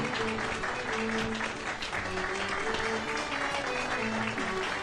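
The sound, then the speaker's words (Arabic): Audience applause at a medal presentation ceremony: dense, steady clapping fills the whole stretch at an even level, with some voices underneath. “رجاء صفق لها.”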